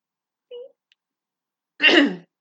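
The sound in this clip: A harsh phlegmy cough or throat clearing comes as one rough burst, preceded by a brief faint voiced sound and followed by a short trailing noise.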